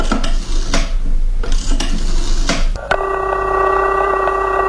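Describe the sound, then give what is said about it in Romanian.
A telephone number being dialed: a few rough, noisy dialing bursts, then a steady, buzzing telephone tone that starts abruptly and continues to the end, with no voices. “Formez numărul și...”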